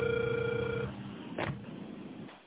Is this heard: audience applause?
no

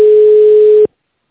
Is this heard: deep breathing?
no

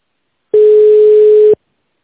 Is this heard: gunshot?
no

